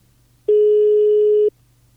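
Ringback tone of a telephone call going unanswered: a single steady beep lasting about one second, loud and clean against near silence, with no voices.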